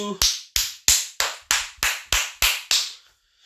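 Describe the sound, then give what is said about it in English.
Nine crisp hand claps from a young girl, evenly spaced in a quick, steady rhythm, each a bright sharp smack with a fast decay, then silence. “Sorry, playing with my daughter. She likes to clap. Clap.”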